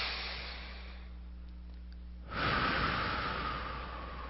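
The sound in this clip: A deep breath taken during a calm, spoken meditation: near-silence with a low steady hum, then about halfway through an airy, hissing breath rises and holds for roughly two seconds before thinning out.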